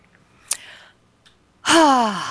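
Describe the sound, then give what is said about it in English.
A deep breath: a few faint clicks and a quiet intake, then a loud voiced, sigh-like exhale that falls in pitch. “I take a deep breath.”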